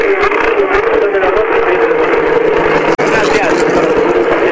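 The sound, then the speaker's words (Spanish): A racing car engine is revved in neutral by a driver celebrating a race victory. It gives a steady, dense roar that runs continuously under speech. “escucharán de fondo ustedes cómo lo acelera en vacío Nacho Faín”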